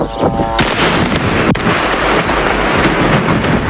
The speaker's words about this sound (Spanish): Este es el sonido de las bombas que caen sobre el Líbano, lanzadas por Israel.